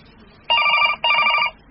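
A telephone rings in two loud, even bursts separated by a short gap, each a bright, buzzing trill with no voices over it.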